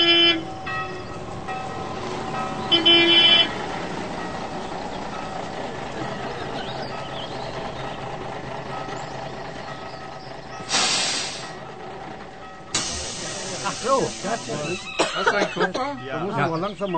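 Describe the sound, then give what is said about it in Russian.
A bus carrying tourists pulls up, its engine giving a steady low rumble, broken by a couple of sharp hissing bursts near the end and a short tonal toot early on. Indistinct voices can be heard towards the close. “Подъезжает автобус с туристами.”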